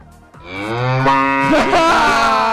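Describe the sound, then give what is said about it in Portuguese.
A cow gives a long, loud, drawn-out moo whose tone rises and then wavers toward the end, heard alone with no talk. “Finalmente acertaram a vaca!”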